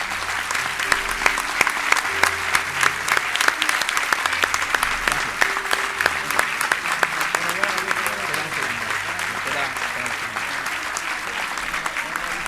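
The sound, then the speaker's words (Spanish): An audience applauds the musicians of three bands at a benefit concert, with dense, loud clapping that holds steady for the whole stretch. “Pido un aplauso para todos los músicos de las tres bandas que han participado, por favor.”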